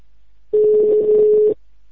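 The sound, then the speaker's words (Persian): Telephone ringback tone while a call is placed to a municipal office in Ahvaz, Iran: a single steady, mid-pitched tone lasting about one second, heard alone. “در همین رابطه تماسی گرفتم با شهرداری منطقه 4 اهواز با آقای محمد رضا فکوریان”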